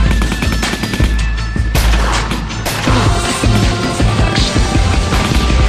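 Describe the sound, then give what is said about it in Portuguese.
Rifle and shotgun gunfire in a dense, continuous barrage of loud, sharp cracks and heavy booms that overlap with no real pauses. “é tiro de fuzil, escopeta e matraca.”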